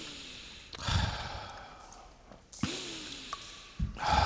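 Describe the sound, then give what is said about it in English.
Slow, deep breaths taken to calm down: a few long, airy inhales and exhales follow one another at a steady pace, with no talking. “Seven more deep breaths.”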